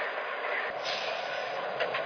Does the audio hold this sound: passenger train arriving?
yes